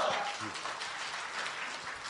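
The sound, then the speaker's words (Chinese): Audience applause at a comic crosstalk show, a steady wash of clapping from many hands holding an even level throughout the short clip. “什么呀，还没唱 都鼓掌了就算了， 鼓掌了，欢迎您唱”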